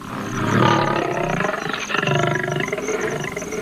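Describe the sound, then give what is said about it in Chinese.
Young lions about two years old roaring, a deep, rough, sustained roar with a broad gritty texture that carries on steadily for the whole stretch. “长到两岁时，这些狮子就要离开他们从小长大的黑岩”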